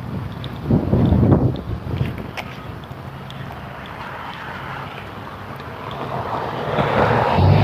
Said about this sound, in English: But it's not terrible because the wind is making it quite delightful, actually.